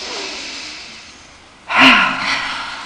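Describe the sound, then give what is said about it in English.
A sharp rush of breath during a guided meditative-movement breathing exercise with shoulders raised, rising suddenly out of a quiet hiss midway through, then easing off while staying audible. “Again, shoulders up, inhale, and let go.”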